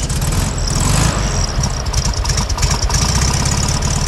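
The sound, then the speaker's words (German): A vintage VW Beetle engine runs at a loud, steady idle with a rough, throbbing, slightly knocking pulse, heard alone without talk. “dorthin ist sie natürlich standesgemäß mit ihrem Käfer gefahren.”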